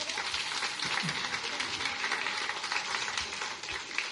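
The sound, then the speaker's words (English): Congregation applause during a church service, a fairly faint, even patter of many hands clapping that holds steady throughout. “So how about a big round of applause for everybody's ability to question and hear one another.”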